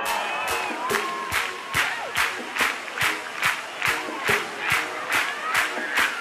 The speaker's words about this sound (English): me see those hands up clapping like this.